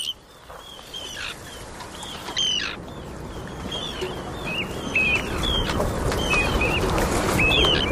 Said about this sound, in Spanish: Pues este es el charrán ártico